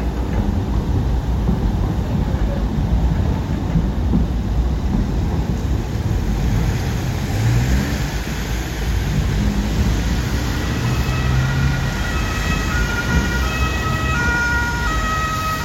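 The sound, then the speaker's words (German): Rush-hour street traffic on a Thursday on a shaky cobblestone city street in Dresden's Neustadt: a steady, loud rumble of passing vehicles, with siren tones wailing over it through the second half. “So oder so ähnlich klingt ein normaler Donnerstag im Berufsverkehr auf der Königsbrücker Straße in der Dresdner Neustadt.”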